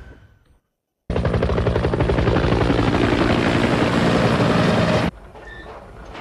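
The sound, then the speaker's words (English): A helicopter flies overhead, its loud, steady rotor chop pounding rapidly for about four seconds before dropping away to a quieter background. “The chopper soars overhead, passing an oil well pumping below.”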